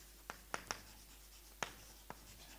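Writing on a board during a lecture, heard as five sharp, faint taps and scratches spaced irregularly, with quiet in between.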